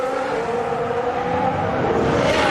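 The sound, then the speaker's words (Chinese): Racing car engines roar as the cars head into a long hairpin bend, one just out of the pits. A loud, steady mechanical drone holds throughout with no gaps and no voices. “劳森呢正好过来的时候呢赶上刚从维修站出来的拉塞尔，来到长长的发卡湾。”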